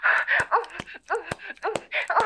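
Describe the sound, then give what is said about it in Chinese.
A man crying, with wailing, moaning sobs broken by sharp catching breaths, his voice wavering in a steady uneven rhythm. “老公，你这是干什么呀？你怎么哭了？你委屈什么呀？”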